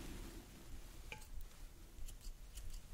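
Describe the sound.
Barber's scissors trimming hair around the ear in a gentleman's barber shop, giving a few faint, crisp snips at irregular intervals over a soft background hiss, with no talking.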